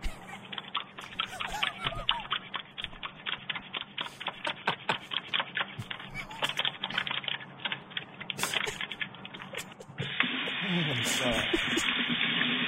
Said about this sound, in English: People, you're not washing your hands right. Hashtag hand hygiene